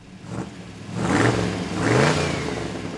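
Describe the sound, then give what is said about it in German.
A Ford Model T engine revs, the mass-produced all-purpose car built from 1908 to 1927. It gives two swelling revs that climb in pitch over a steady mechanical rumble, with no voices. “steckt fortan seine ganze Energie in die Entwicklung jenes massentauglichen Allzweckwagens, der nicht nur ihn berühmt machen, sondern auch die Welt verändern sollte. Das Modell T.”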